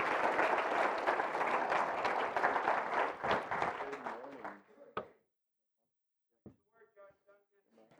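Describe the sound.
An audience gives a warm Gateway welcome with dense applause that holds for several seconds, then thins and fades to silence. A few brief voice sounds follow.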